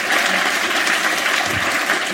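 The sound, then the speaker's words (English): Audience applause fills the whole stretch: a thick, even wash of many people clapping at steady loudness, with no voices standing out. “I'm not proud of getting a round of applause in the word cunt.”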